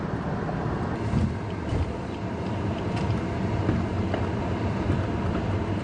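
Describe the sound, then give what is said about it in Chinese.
A car being driven on a multi-lane road gives a steady, continuous rumble of engine and road noise with no distinct events and no talk. “我现在开车去接我妈妈”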